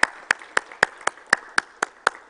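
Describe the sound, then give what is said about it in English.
An audience claps in unison during a call-and-response game, with sharp, evenly spaced claps in a steady, quick rhythm and clean gaps between them. “Preacher says, clap your hands.”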